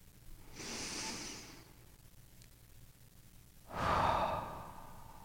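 A deep breath drawn slowly in, then after a short pause let out in a fuller, louder exhale. Soft, airy and breathy, with no talk.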